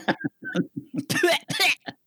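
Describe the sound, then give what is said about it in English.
A person clears a tickle from their throat with two harsh, rough bursts, set between short stretches of ordinary speech. “I think you got a little tickle in your throat there.”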